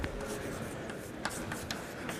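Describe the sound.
Scratchy writing on a board as a lecturer writes out physics equations: a steady, continuous rasp with a few sharper taps and strokes standing out along the way.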